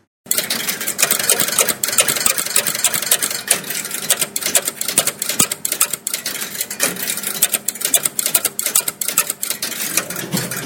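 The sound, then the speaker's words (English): Relays of an old relay computer click rapidly while it runs a program, producing a dense, continuous mechanical clatter that stays steady and loud throughout. “This is the sound of its relays running the program.”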